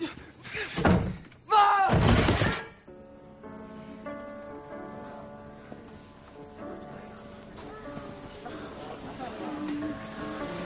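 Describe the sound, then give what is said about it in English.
A door slammed shut with two loud, heavy bangs in quick succession, followed by a quieter, steady tonal background. “Shut the fucking door!”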